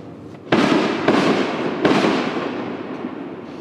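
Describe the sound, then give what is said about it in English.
Fireworks go off across the street: three loud, sharp blasts in quick succession, each trailing into a long crackling rumble that slowly dies away, with no voices. “What's that? The fireworks? Yeah. Yeah, they're fucking right across the street.”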